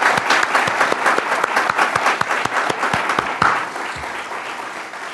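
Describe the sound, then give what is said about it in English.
A church audience applauds to welcome a visitor, with dense, steady clapping that runs the whole time and eases slightly toward the end. “How many appreciate having this brother with us? Let's give him a hand.”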